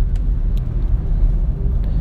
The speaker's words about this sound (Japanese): すごいトラックがビュンビュン追い越していきます。